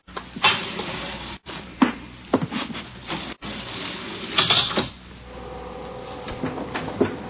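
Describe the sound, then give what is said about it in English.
Elevator doors open and close and the car rides, giving a steady mechanical rumble broken by several clunks and sharp knocks, with two brief dropouts and a smoother hum toward the end. “Let's take the elevator.”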